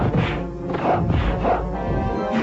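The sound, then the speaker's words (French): Sword strikes, punches and kicks from a video game form a dense, continuous flurry of whacks and swishes. The hits blur together at a steady loudness, with no clear pauses between them. “Coups d'épée et enchaînement pieds-poings sont efficaces. Les bruitages, eux, suivent bien.”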